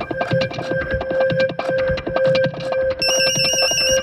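Electronic telephone ring, a high warbling trill that enters near the end over a loud rhythmic beat with steady held tones running throughout.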